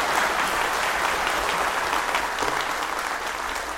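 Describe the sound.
A Baptist church audience applauds to welcome a guest speaker, a full, steady wash of many hands clapping that stays loud throughout and eases slightly toward the end.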